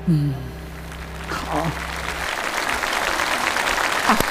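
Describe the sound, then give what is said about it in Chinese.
Audience applause at a singing competition show: a voice speaks briefly at the start, then a dense, even clatter of clapping builds and continues to the end. “啊，为你师弟鼓掌。”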